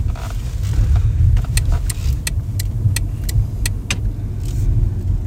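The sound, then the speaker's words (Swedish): A car drives along a residential street, with a steady low engine and road rumble throughout and a run of evenly spaced sharp ticks over it partway through. “Här kommer vi, kör vi förbi nu där Benjamin är uppväxt.”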